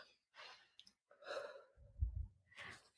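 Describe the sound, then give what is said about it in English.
Deep breath in and a slow exhale during a guided relaxation exercise: a few soft, airy breath sounds, one with a low puffing rumble near the middle, alone with no talk. “Okay, take a deep breath in and let it out nice and slowly.”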